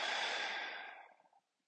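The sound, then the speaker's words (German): Deep breathing during a guided meditation: a single long, airy rush of soft breath that tapers away after about a second and a half into silence, quiet and alone. “Tiefe Einatmung und Ausatmen.”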